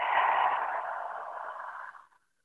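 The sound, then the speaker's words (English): A single long breath out during a guided breathing exercise: a steady, airy whoosh that slowly thins and fades to silence after about two seconds. “Third time's the charm, deep breath in and release all your breath out.”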